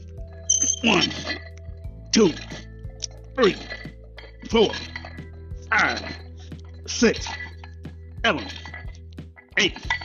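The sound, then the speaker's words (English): Barbell plates clinking on a curl bar during a set of barbell curls: repeated bursts of metallic rattling and clanking, one with each repetition in a steady rhythm, over a low constant hum. “barbell curls. These are done using the curled bar. I'm going to do 10 more repetitions. So I won't have to count. It's a little noisy, but here we go.”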